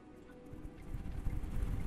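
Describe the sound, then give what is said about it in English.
Galloping horse hoofbeats circle a tower, a dense run of low, thudding clip-clop beats that grows steadily louder over the two seconds. “You hear near galloping hoofbeats circling the tower up around.”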